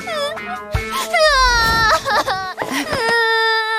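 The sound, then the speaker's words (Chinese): Someone cries loudly in wavering, high-pitched wails and sobs broken by catching breaths, with the pitch rising and falling throughout. “别哭别哭”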